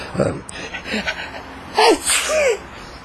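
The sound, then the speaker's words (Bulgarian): A voice imitates a grandfather's repeated sneezing, with a few sharp, breathy bursts in a row, spaced unevenly, the later ones louder and more strongly voiced. “Казвам, като почне деда ви да им киха, раз, па два, па три, па така подсмръкна”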